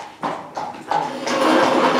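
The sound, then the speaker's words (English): A horse walking, its hooves clip-clopping in a few dull, separate steps, followed by a steady rustling, shuffling noise. “Just have a horse walking. Never mind that.”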